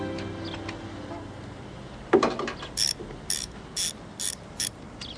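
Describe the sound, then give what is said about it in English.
Socket wrench ratcheting: a single clank, then about five short, quick runs of bright clicking spaced evenly apart, with faint background hum. “Socket wrench.”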